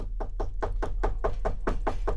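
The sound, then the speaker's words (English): Knuckles rap loudly on a door in a quick, steady run of many evenly spaced knocks, with a low hum beneath. “And rapped loudly at the door with his knuckles.”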